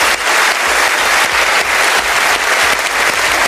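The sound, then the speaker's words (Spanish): A Cannes festival audience gives a loud, dense ovation for Barbra Streisand's honorary Palme d'Or. The applause is unbroken and even from start to finish, with no single voice standing out. “La Palma de Oro de Honor fue para Barbara Streisand, que no pudo estar presente, pero quien envió un agradecimiento y fue ampliamente ovacionada por el público.”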